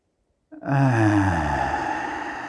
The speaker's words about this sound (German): Tief einatmen und deutlich hörbar.